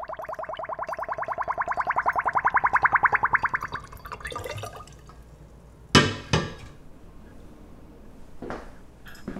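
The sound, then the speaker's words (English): Homemade plum wine drains through a funnel into a bottle. Rapid, rhythmic bubbling gurgles swell louder for several seconds as air escapes, then stop, followed by a few sharp glassy knocks. “This is wine draining through a funnel.”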